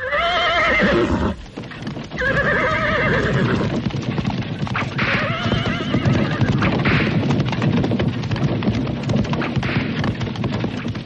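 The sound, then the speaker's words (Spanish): A carriage horse neighs several times over a steady clip-clop of hooves, the whinnies rising above the rhythmic trotting that continues throughout. “al final de la escalera, el carruaje. Subí a él.”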